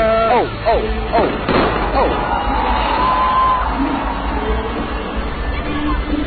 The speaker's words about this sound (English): No, they're not shooting at us. Those are fireworks.